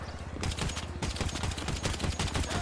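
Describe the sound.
Rapid automatic gunfire in a police video game: a dense, continuous volley of sharp shots fills the whole stretch at a steady, fast rhythm, with no pause.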